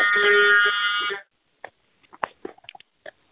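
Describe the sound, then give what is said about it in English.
A phone notification gives one harsh, horn-like buzzing tone that lasts about a second, followed by a few faint short blips and taps. “I just heard a honking horn. That was my phone beeping.”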